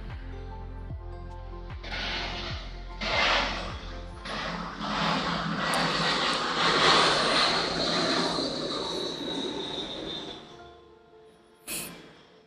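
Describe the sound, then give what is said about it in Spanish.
Rushing roar of an airplane engine passing, building to a loud peak and then fading, with a high whine running through it. “Tenemos al avión.”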